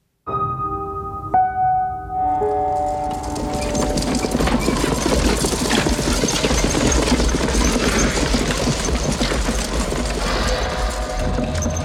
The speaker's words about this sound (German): Da kommt der Wagen.